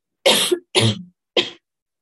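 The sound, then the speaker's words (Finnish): Three short, sharp coughs from one person, loud and alone, with brief silent gaps between them. “Hyvä, että ei olla livenä, niin mä yskittelen kaikkien päälle.”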